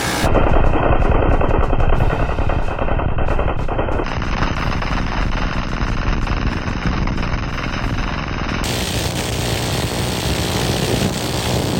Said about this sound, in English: How about the M134? 50 rounds a second, just destroying.